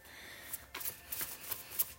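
Tarot cards are shuffled in a rapid series of soft, papery riffles and light taps, faint and with no voices.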